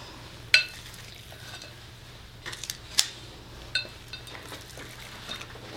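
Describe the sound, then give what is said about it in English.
A utensil scoops mixture onto a small Pampered Chef baking pan, giving soft scraping broken by a few sharp metallic taps and clicks. Nobody talks. “Then you take your prepared baking tray. I am a Pampered Chef junkie, so that's where this small pan came from. scoop it out.”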